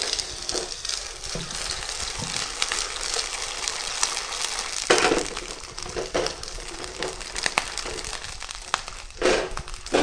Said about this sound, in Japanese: アサリを加えるとちょっと跳ねますので、気をつけていただいて、心に殻付きのアサリを一度に加えます。